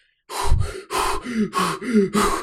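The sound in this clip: Sharp gasping breaths from a person under a cold shower: a rapid, uneven series of loud, ragged inhales and exhales with short gaps between them, with no talk.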